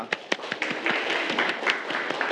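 Students clapping their hands in a classroom: a run of many quick, uneven claps and taps at moderate loudness, with no talking over them.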